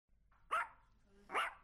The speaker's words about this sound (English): Aw, what a cute dog!